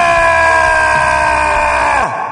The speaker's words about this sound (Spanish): Saque su megáfono y grite con toda su fuerza lo siguiente